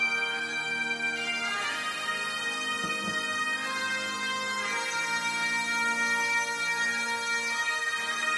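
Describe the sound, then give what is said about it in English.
A bagpipe plays a continuous, reedy, buzzing drone with a melody line shifting above it. The sound stays steady and unbroken for about eight seconds, with no voices. “This is the breath of man. That's what a bagpipe is. It's a big bag of breath.”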